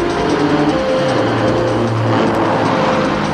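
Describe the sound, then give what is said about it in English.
Morris Ital car accelerating, a loud, steady engine roar that holds without a break for the whole clip. “Out from the Ital design studio comes the Morris Ital. It accelerates faster from 0 to 60 than a Saab 900 GLS and overtakes faster than a Mercedes 200.”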